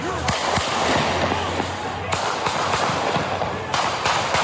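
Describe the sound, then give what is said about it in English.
Gunshots from an AR-15 rifle fired during street protests in Kenosha, Wisconsin: several sharp, loud cracks in an uneven series, cutting through a dense, continuous background noise. “That's the sound of the AR-15 rifle reportedly fired by self-described white nationalist Kyle Rittenhouse.”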